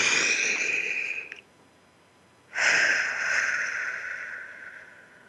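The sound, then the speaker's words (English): A group of people take a deep breath together during a guided exercise: a long, airy, hissing rush of breath, a short pause, then another long breath that slowly fades. “And let's take a deep breath together.”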